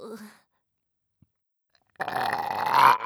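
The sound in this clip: A loud, drawn-out burp that swells toward its end, following a brief stretch of voice and a quiet gap.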